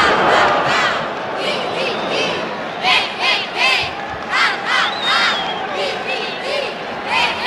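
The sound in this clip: A crowd cheers and clamours during a sports match involving a Europe team, a sustained loud roar with many sharp shouts rising out of it.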